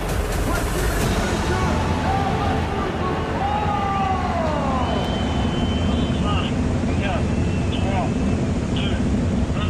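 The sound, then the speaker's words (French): Race car engines starting on the grid just before the formation lap of a 24-hour race, a loud continuous mechanical roar with whining tones that rise and fall, while voices are heard underneath. “Pilote, démarrez vos moteurs.”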